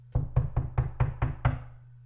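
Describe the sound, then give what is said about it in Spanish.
Knocking on a house door: seven evenly spaced, firm raps with a low, resonant thud, heard alone with no talk. “Al volver la cucarachita a su casa, llamó a la puerta.”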